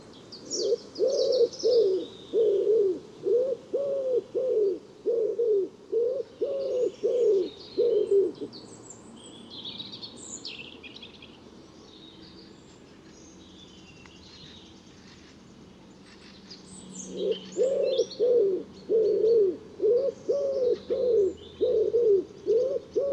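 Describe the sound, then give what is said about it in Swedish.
A wood pigeon coos in a steady rhythm of low, hollow notes, delivered in two long bouts separated by a quiet stretch, with faint chirps from other birds above. “Ringduva.”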